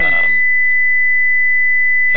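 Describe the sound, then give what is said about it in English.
A loud electronic beep from an unknown device holds as one steady, high, unbroken tone for nearly two seconds. Brief speech comes just before and just after it. “I don't know who that is, but I don't know, somebody's beeping hard.”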